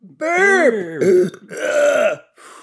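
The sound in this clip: A burp from someone eating Japanese Kit Kats, a loud, croaking, drawn-out belch in a few voiced surges, trailing into a faint final rasp.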